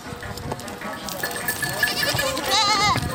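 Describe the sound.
Goats and sheep in a herded flock bleat: a few wavering, nasal calls, with one high quavering bleat near the end, while a voice talks beneath.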